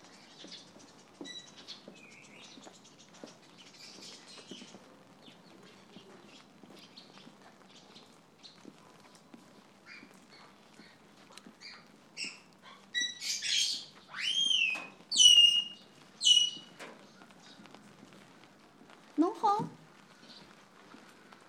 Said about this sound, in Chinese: 这鸟是我对门的厨余茶楼的老板养的，老多人侪以为伊是只八哥，实际上勿是。